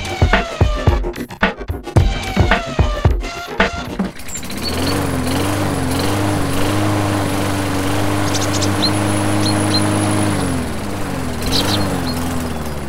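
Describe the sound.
A troublesome ride-on lawnmower in a home garden gives about four seconds of irregular sputtering bursts, then settles into a steady, loud droning engine hum that lasts to the end.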